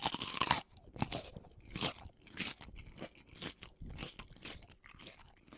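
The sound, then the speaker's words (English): Someone bites into crunchy food, producing a series of crisp, crackling crunches and chewing sounds, loudest at the first bite, then continuing in irregular bursts. “Well, let's bite in. I mean, like, what does it taste like?”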